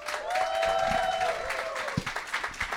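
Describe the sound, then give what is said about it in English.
A studio audience applauds Broadway star guest Javier Muñoz, with steady clapping under a sustained tone that fades, then a few scattered claps. “Please give it up for Javier Munoz, everyone.”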